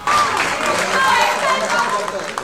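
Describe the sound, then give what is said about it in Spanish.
An audience in the Trelew massacre trial cheers and applauds the reading of the verdict. The clapping and cheering are loud, dense and continuous, with shouting voices throughout. “Por eso elegimos comenzar este programa con esta lectura del veredicto de la causa por la masacre de Trelew, que fue ampliamente festejada, obviamente, por el público allí.”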